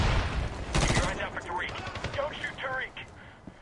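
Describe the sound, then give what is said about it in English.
A grenade goes off in a video game shooter: a short, sharp blast comes early amid gunfire, then a voice speaks over quieter game sounds. “There goes the nade. Hey! What do you know? Nades do something.”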